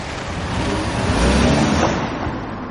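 A car drives off: a steady, broad engine and road rush that swells a little midway and then eases, with no voices.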